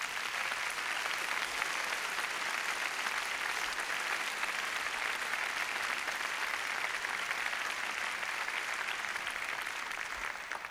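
Steady audience applause at a folk concert, given in thanks to the sound crew. Dense, even clapping continues at moderate level for about eleven seconds without a break.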